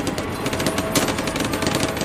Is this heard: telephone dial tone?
no